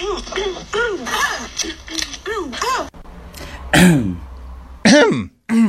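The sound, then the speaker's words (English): A woman clears her throat over and over in short, harsh bursts that alternate with her speaking. The bursts are loud and choppy, with brief gaps of silence near the end. “So she clears her throat at the beginning of every sentence, kind of?”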